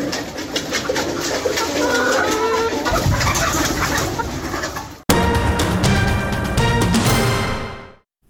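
Domestic chickens kept at home for eggs and meat in a rural area give a dense, continuous chorus of clucks and coos, with no talk. The sound breaks briefly partway through, then fades out at the end.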